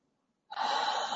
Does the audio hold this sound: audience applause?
no